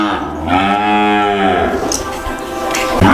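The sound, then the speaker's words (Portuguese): Cattle in farm corrals let out one long, deep, loud moo, followed by fainter lowing and shuffling from the herd. “Então, olha aí o som dos currais, olha aí, ó.”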